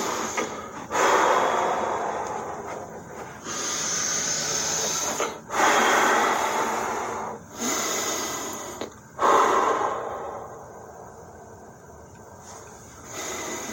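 Heavy, ragged breathing from someone in a panic attack: a run of loud, harsh breaths with short gaps between them, each breath rasping and airy, with no talk over it.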